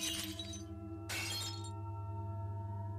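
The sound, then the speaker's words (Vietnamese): A ceramic incense bowl falls and shatters on the ground, giving two bright, crashing bursts of breakage about a second apart over a low, steady hum. “Hai mảnh bát hương cũng rơi xuống đất, vỡ tung tóe, bắn cả vào chân của bà.”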